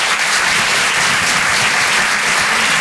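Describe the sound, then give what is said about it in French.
A comedy club audience applauds a performer in dense, continuous clapping that stays loud and even throughout, with no clear voices. “Faites du bruit s'il vous plaît pour Gaëtan Husson.”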